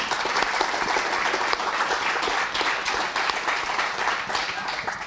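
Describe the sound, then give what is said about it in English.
An audience applauds to welcome a Cheltenham Festival-winning jockey onto the stage. Thick, continuous clapping holds at a steady, loud level for about five seconds. “Please put your hands together and welcome Brian Hughes.”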